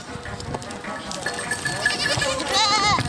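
Herded goats and sheep bleat several times, overlapping one another in wavering, nasal cries that grow louder toward the end.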